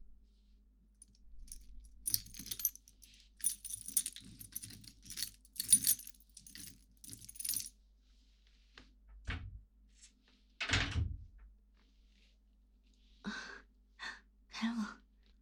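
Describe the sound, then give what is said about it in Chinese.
Keys jangle in bursts for several seconds while a cabinet is unlocked, followed by a couple of heavy thumps as it is forced open, then a few short breathy sounds. “没想到，学弟很有力气嘛，这么轻松就把柜子打开了”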